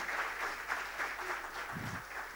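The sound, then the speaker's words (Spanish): An audience in church applauds for a young girl with steady, continuous clapping that lasts the whole clip at a moderate level. “Otro aplauso para la niña.”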